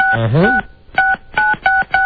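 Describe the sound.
A telephone number being dialled with touch tones: several short, even beeps in steady succession, the later ones repeating the same tone.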